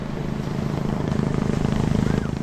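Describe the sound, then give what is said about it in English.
A shark patrol helicopter hovers over a surf beach in Perth, giving off a steady, loud rotor drone with a fast, even thudding pulse throughout. “As I head down to the water, the Shark Patrol helicopter starts to hover ominously overhead.”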